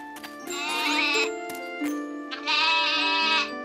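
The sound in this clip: A goat bleats twice: two long, wavering, strongly harmonic cries separated by a short pause. Both are loud, with no talk.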